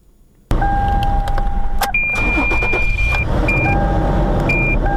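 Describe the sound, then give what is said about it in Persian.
A car engine in Herat starts suddenly after a brief hush, then runs at a steady, loud idle, while a few electronic dashboard chime tones sound over it. “در حال روشن کردن موترش است”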